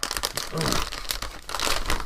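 Crinkling packaging as a parcel shipped in an envelope is unwrapped: loud, continuous rustling and crackling of plastic or paper that stays dense throughout, with no voices.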